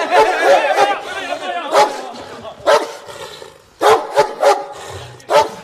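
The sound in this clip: A dog barks in several loud, sharp bursts spread irregularly across the moment, with a murmur of chattering voices underneath.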